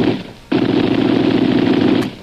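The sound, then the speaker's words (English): Gunfire is fired over people's heads in an adventure drama, a loud, dense, rapid rattle of shots sustained for about one and a half seconds after a quieter opening burst, then cut off abruptly. “He's firing over the heads”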